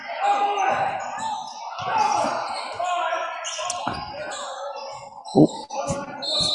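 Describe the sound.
Basketball dribbled during a game under tight defense, a few sharp bounces standing out over steady crowd noise and voices.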